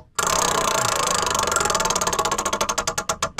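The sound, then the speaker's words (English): A prize wheel spins with a rapid ratcheting clatter of clicks that gradually slows into distinct, evenly spaced ticks as it loses speed near the end. “So let's spin the wheel.”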